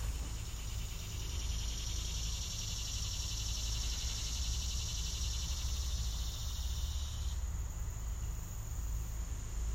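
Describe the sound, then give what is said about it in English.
Insects chirp outdoors in a steady, high, shrill trill over a low hum. One layer of the chorus cuts out near the end while another carries on. “Can hear some bugs.”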